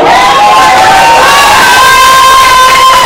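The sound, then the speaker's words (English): A crowd cheers and shouts for fathers at a Father's Day event, a loud, dense, unbroken roar of many voices that carries on throughout. “what we have to do today is it's Father's Day. So can we just make some noise for all the”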